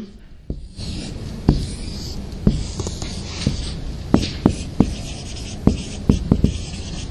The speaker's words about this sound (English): the next piece I just want to draw out for you is called The Cycle of Abuse.